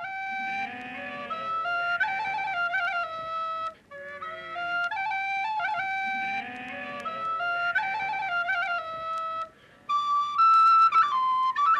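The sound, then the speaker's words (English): A shepherd plays a reed flute, the Khalil, in a bright, high melody. Repeated phrases of sustained and trilled notes break off in two short pauses, and the last phrase climbs higher. No voices are heard over it. “The shepherd plays his reed flute, the Khalil.”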